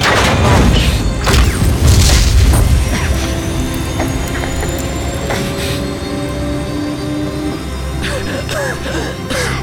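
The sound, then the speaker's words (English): A sci-fi escape pod launches with heavy mechanical clanks, ratcheting and booming impacts at the start, then settles into loud whirring machinery with sustained tones and a few later clunks. “Escape pod launch in 10 seconds.”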